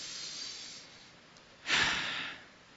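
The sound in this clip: A single breath is pushed out through the mouth, a soft breathy whoosh that swells suddenly and then fades over about a second. Fainter breath noise comes before it.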